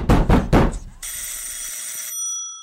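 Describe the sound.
Agents knocking at a door in the dark city: a few heavy, booming knocks in quick succession, followed by a sustained high ringing tone that fades away.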